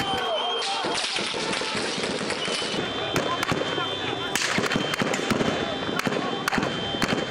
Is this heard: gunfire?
yes

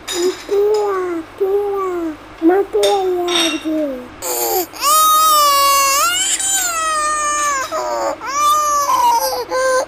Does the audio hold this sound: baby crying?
yes

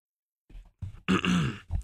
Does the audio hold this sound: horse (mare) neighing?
no

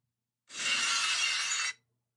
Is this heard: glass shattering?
yes

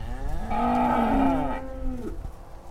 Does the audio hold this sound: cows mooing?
yes

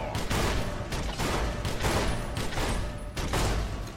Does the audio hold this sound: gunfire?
yes

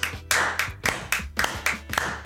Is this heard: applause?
yes

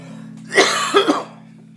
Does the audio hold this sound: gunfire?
no

